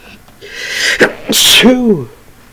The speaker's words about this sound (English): There's that sneeze. It was not as satisfying as I'd wished it would be.